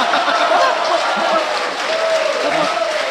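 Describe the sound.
Audience applause, a steady and loud wash of dense clapping, with a voice talking over it.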